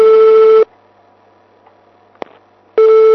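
A telephone tone heard in a handset while a call is being dialed: a steady tone, then a quiet pause of about two seconds with a faint click, then the same tone again.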